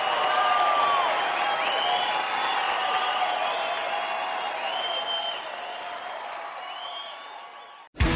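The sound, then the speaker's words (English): Audience applause at the close of a stand-up comedy show in Santa Rosa: dense, sustained clapping that eases slightly over several seconds, then cuts off abruptly near the end. “Clap for my gay friends tonight, who are amazing.”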